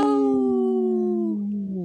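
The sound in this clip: A wolf howling: a long, sustained tonal note rich in overtones that slides slowly downward in pitch, with a second howl overlapping near the end and no talk.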